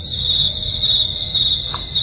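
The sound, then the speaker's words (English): A cricket chirping sound effect gives a steady, high-pitched trill that carries loud and unbroken through the whole clip. “Some crickets?”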